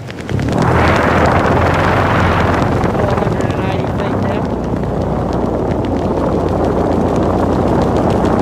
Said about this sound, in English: 480 feet now. That's now a crosswind.